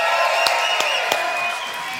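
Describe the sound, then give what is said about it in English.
A stage audience whoops, hollers and claps to welcome a couple. Sustained cheering voices run throughout, with a few sharp claps standing out. “I want us to whoop and holler and make him feel welcome.”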